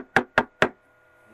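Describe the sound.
Three firm knocks on the front door of a house, evenly spaced and loud, followed by a short stretch of quiet.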